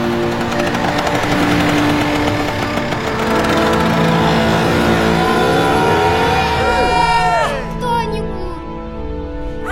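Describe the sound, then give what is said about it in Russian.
A motor scooter weaving between cars in city traffic toward a cordoned-off metro station, its engine droning loudly and steadily, then shifting pitch and easing off near the end, with talk over it. “Лавируя между машин, мотороллер подвозит Ирину к оцеплению станции метро.”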